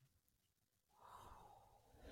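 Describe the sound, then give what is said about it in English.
A deep breath drawn in, a soft breathy rush that begins after a quiet moment and swells steadily louder to the end. “let's just take a deep breath together real quick. Just breathing in”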